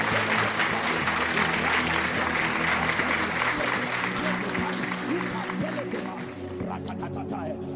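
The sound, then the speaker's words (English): Congregation clapping hands during prayer at a church service, a steady run of loud claps under voices and a tonal background that thins out near the end. “Clap your hands and begin to pray.”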